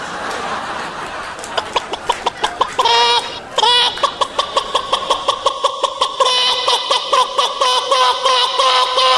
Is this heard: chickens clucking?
yes